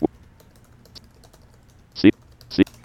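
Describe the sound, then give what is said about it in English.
A few separate keystrokes on a computer keyboard while a file path is typed in. Sparse, sharp clicks come at the start, then after a long pause, with one faint tap in between. “Let's go to my sounds directory. I'm just going to type in my path to that very quickly here.”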